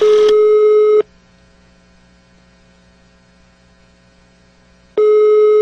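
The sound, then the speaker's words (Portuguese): Ringback tone of an outgoing call to a mobile phone: a steady buzzing tone sounds for about a second, then stops for roughly four seconds over a low electrical hum before the tone starts again. “Não sei quem é você, mas tá ligando meu celular.”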